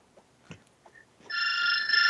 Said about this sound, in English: Answer the f***ing phone, family.